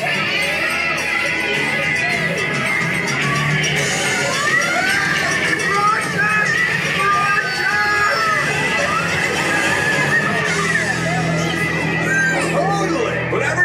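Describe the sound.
On Epcot's The Living Seas with Nemo and Friends ride, a busy crowd keeps up a continuous din, with children shouting, whooping and chattering throughout.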